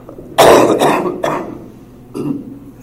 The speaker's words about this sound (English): I'll cough whenever I think the lecture's not going well to try to evoke some sympathy.